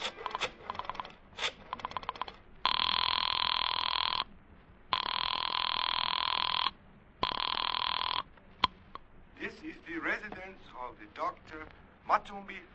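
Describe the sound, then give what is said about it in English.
A telephone rings after a number is dialed: clicking at first, then three long, loud, buzzing rings with short gaps, followed by voices talking. “I dug through the telephone book and I found Dr. Matsonby Forsythe's number and I dialed it.”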